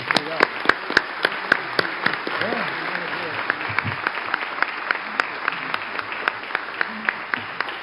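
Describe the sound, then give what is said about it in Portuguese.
Audience applauding a speaker at a formal gathering, many scattered sharp claps with a few louder, evenly spaced hand strikes standing out, while faint voices murmur underneath. “Então eu quero que todos aqui agora, uma salva de palmas para o doutor Nico.”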